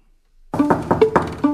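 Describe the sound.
Knuckles rap on a hotel room door in a quick, uneven series of knocks, moderately loud, with sustained tonal notes ringing alongside.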